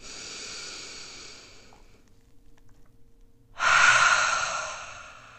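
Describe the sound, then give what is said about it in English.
A deep meditation breath: a long, soft airy breath fades away, then after a quiet pause a loud, full inhale swells in and slowly tapers off. “Two more times. Inhale.”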